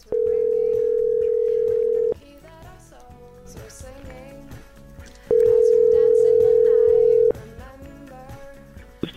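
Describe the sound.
A telephone call to a mobile number on a wireless network rings out in two steady, loud tones of about two seconds each, separated by a gap. Voices talk quietly in the background throughout.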